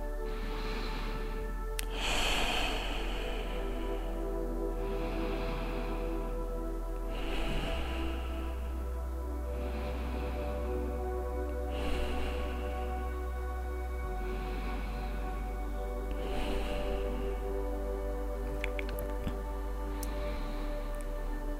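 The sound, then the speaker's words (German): Slow, deep breathing, in through the nose and out through the mouth, in soft, steady, evenly spaced cycles over a sustained tonal background. “Und gemeinsam atmen wir hier noch ein paar tiefe Atemzüge. Gern einfach durch die Nase ein und durch den Mund wieder aus.”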